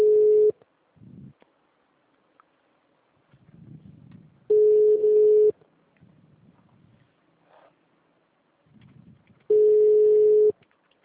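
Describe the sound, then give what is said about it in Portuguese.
A phone call ringing through to a call center, heard as three steady single-pitch ringback tones, each about a second long and spaced several seconds apart, with faint low murmurs between them. “tô discando. Tô no call center.”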